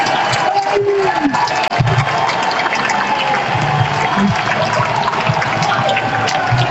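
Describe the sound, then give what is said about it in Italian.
Away fans applauding in a football stadium while the starting players warm up: a steady, loud wash of clapping and crowd noise that continues throughout. “gruppo dei titolari che si riscalda e si prende l'abbraccio del settore ospiti.”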